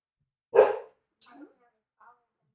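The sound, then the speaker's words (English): A dog gives one loud, sharp bark over near-silence, followed by a few fainter, brief sounds. “Sorry for the barking dog.”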